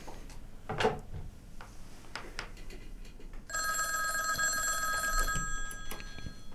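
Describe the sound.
An incoming call rings a telephone in a studio, a single bright, trilling bell ring of about two seconds. A few faint clicks and knocks come before it.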